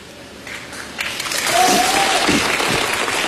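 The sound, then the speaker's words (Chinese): Audience applause at a traditional kuaiban performance, dense steady clapping that swells after about a second and then holds loud and even to the end. “各位您鼓鼓掌，我给您来一传统的快板行吧。”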